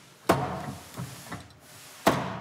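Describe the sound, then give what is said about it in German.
Blows strike a safe to knock the spring-loaded pin in its lock aside: two heavy, sharp metallic thuds with two lighter knocks between them, each blow followed by a short ringing decay. “Man kann die zum Teil öffnen, indem man einfach draufhaut oder mit einfachsten Aufbruchswerkzeugen.”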